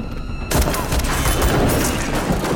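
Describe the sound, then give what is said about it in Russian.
A sudden loud burst of gunfire, a shot fired at a man and missing during a shootout near a wingless aircraft, breaks out of near silence and is followed by dense, sustained rumbling noise. “Кло открывает огонь, но промахивается.”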